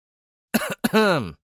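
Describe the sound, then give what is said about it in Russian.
A man coughs into his fist, two short throaty bursts in quick succession, the second longer and more voiced, heard alone against silence. “Кашлянул я в кулак, привлекая внимание к своей голодной персоне.”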